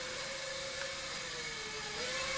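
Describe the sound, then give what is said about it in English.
A toy drone flies overhead with a steady buzzing whir and a slightly wavering motor tone, fairly faint and with no talk. “Oh, God, here it comes. Here comes Ken's drone toy.”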